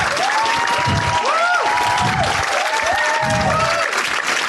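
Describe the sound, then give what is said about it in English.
An audience applauds and cheers to welcome a film panel to the stage, loud, sustained clapping with crowd noise that stays even throughout. “Can you please show your appreciation and welcome our wonderful panel to talk to us about this extraordinary film? Please put your hands together and welcome Suleika Jawad, John Batiste, and Matthew Heineman.”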